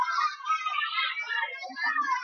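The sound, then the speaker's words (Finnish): Children shouting at a small demonstration: a crowd of high young voices calls and yells over one another in a steady, fairly quiet stream. “Täällä on joku pieni mielenosoitus tällä hetkellä. Ja mä, no parempi, että vanhat on hiljaa, kun nuoret huutaa.”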